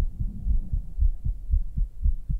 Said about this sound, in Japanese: めっちゃバクバクしてる。女の心臓。